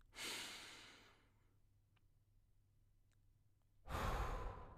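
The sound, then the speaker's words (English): A deep breath drawn in through the nose, loud and airy, followed after a quiet pause by a second full breath. “And first of all, through the nose, take a big, deep breath in.”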